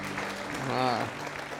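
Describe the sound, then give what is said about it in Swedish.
Church audience applauding the worship team, soft, steady clapping with a single voice briefly heard over it. “Ska vi ge Jesus Kristus en applåd? Ta. Och ge det här underbara lovsångsteamet en liten applåd också.”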